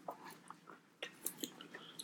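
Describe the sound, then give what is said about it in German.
Faint crunching and chewing while eating a potato and salami pizza with very hard potato slices: a few quiet crisp bites and mouth sounds, with no talk. “Die Kartoffeln sind sehr hart auf deiner Pizza. So, wir probieren das jetzt einfach mal.”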